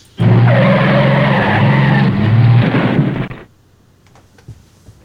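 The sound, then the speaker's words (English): The presidential limousine known as the Beast roars loudly around the Daytona track on a victory lap, a sustained tire-and-engine rush lasting about three seconds before dropping away abruptly. “And he is going to have them drive his limousine, known as the Beast, around the track in a victory lap.”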